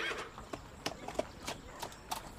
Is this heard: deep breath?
no